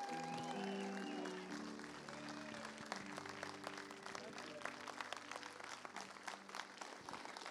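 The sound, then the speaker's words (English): Church audience clapping in welcome for the pastor's mother: faint, dense applause from many hands that builds over sustained tones and continues steadily to the end. “Would you put your hands together big and welcome?”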